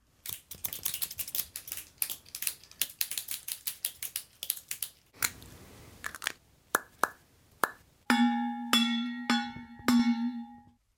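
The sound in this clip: Scissors snipping, a fountain pen cap popped on and off and a metal water bottle ringing, all items from a school bag. A long run of rapid, crisp clicks and a few sharp pops leads to resonant metallic rings at the end.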